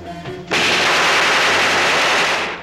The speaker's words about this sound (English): He shoots through the lock. Obsolete but effective.